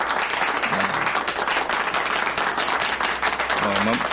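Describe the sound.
People clapping in congratulation, a lively, continuous burst of applause with a few brief voices rising over it.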